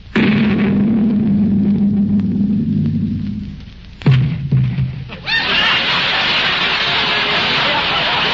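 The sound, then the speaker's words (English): A cannon shot fired across a ship's bow serves as a comedy radio drama effect. Speech gives way to a sharp boom, followed by a sustained loud rushing roar. “Mate, fire a shot across her bow. One shot across the bow. Fire!”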